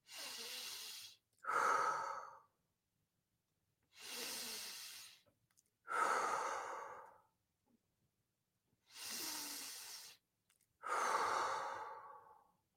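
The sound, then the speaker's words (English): Three slow breath cycles, each drawn in through the nose as a soft hiss and pushed out through the mouth as a longer, fuller exhale, with silent pauses between breaths and no talking. “I want you to breathe in through your nose and out through your mouth.”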